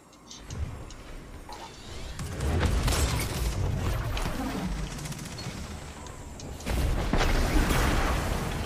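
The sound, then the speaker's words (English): The Golden Gun super fires in the video game Destiny 2 in a few loud, heavy booming blasts. Other crackling gunfire and explosions surround them. “Golden gun, watch out. It's loud, watch out.”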